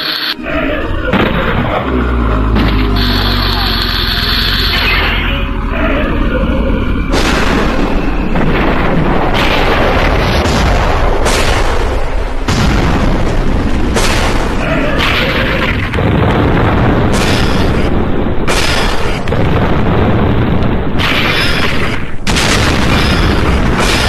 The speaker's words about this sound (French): Ils font exploser le vinaigre balsamique, c'est de toute beauté.